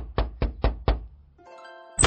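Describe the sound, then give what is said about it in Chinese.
Four firm, hollow knocks on a front door in a quick, even rhythm, followed by quiet. “花了一个月的零花钱买够了糖果，敲寻家门的时候心情忐忑不已。”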